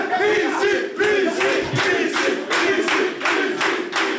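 Group shouting in the Trabzonspor football club locker room, loud and rhythmic, with short shouted bursts repeating at a steady, roughly even pace.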